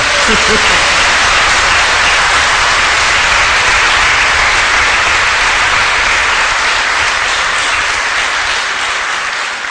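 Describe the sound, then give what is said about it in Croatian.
A church audience claps together for worshippers standing outside in the rain. The steady, dense applause stays loud for nearly ten seconds and thins a little toward the end. “Idemo sada zapljeskati onima koji su tamo vani.”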